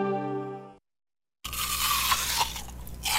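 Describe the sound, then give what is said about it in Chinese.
Crunchy biting and chewing of a piece of partly rotten fruit, a wet, noisy crunch lasting about two seconds that follows a brief musical tone and a moment of silence. “妈，那个水果烂了，别吃了。”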